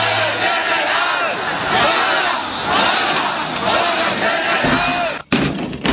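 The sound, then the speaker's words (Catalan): A crowd of people shouts in the street during a general strike. The roar is loud and continuous, with overlapping yells and cries, and drops off sharply for a moment just before the end. “Pero hay gente en la calle y grita. Ni peros ni nada. A la cama y sin postre. Y cierra la ventana que con tanto ruido no hay quien escuche la televisión.”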